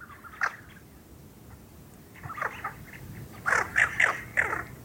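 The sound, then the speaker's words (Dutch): Tufted ducks calling, a flock giving rolling, trilling calls that echo like something skittering over ice. One short burst comes first, then a denser run of repeated calls builds toward the end. No one speaks. “In mijn vogelgids staat dat kuifeenden gewoonlijk zwijgzaam zijn. Vandaag tot mijn grote plezier niet. Ja, het is inderdaad iets wat rolt over het ijs.”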